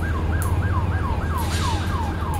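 Siren wailing in a rapid, steady cycle, each whoop sweeping up quickly and then sliding down, repeated many times at a loud, even level.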